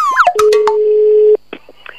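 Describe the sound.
A telephone line tone sounds as a radio station places a call: a few quick electronic chirps, then a steady single tone held for about a second before cutting off, followed by brief, fainter beeps.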